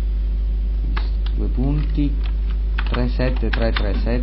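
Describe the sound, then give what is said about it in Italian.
Computer keyboard typing, done with one hand while the other holds the microphone, sounds as light scattered key clicks beneath a man talking continuously. “Sto tenendo con una mano il microfono mentre scrivo.”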